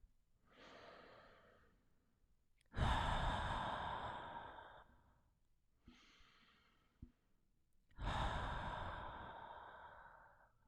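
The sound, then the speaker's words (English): Deep breathing during a meditation: two cycles, each a softer, airy inhale through the nose followed by a louder, longer exhale that trails off like a sigh, with quiet gaps between and no talk. “Exhale all the air from your lungs. Inhale through your nose.”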